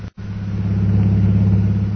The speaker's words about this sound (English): We now find Jungle Jim and Mr. Cooper driving through the streets of Shanghai on their way to the Jockey Club.